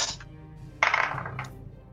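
Dice rolled for an attack in a tabletop role-playing game: a few short clattering rattles, the brightest burst midway, fairly faint and with no talk.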